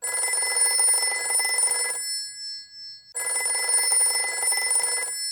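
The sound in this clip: A telephone bell rings in two long, loud, metallic bursts of about two seconds each, separated by a short silence, with no voices.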